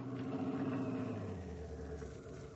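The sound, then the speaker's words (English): A car engine rumbling steadily as the car pulls up and stops in front of a new, expensive house, the low, fairly faint drone sinking slightly lower as it slows. “Oh, do you want me to drive by and stop? No, stop right in front of the house.”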